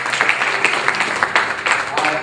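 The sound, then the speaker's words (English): A church audience applauds the worship team with a dense patter of clapping, steady and fairly loud, mixed with voices. “Thank you, worship team, doing a wonderful job today, as you always do. Give them a round of applause.”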